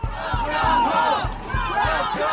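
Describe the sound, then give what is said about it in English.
Supporters cheer and chant to welcome Representative Justin Jones back to the Tennessee state capitol, a loud crowd roar of shouting voices over rhythmic low thumps. “You just heard supporters of Nashville Representative Justin Jones welcoming him back to the state capitol yesterday”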